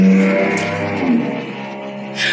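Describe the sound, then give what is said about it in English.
A car engine revving as a bright yellow Ford Mustang goes past: a loud, harmonic engine drone whose pitch dips briefly mid-clip, with a short burst of hiss near the end. No one speaks. “He is a daily occurrence in his bright yellow Ford Mustang.”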